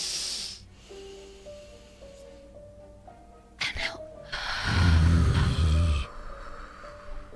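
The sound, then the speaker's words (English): A long, breathy inhale during a guided breathing exercise with children, rising as a loud airy rush over a quiet steady tonal background before cutting off. “Remember that, and then we're gonna breathe.”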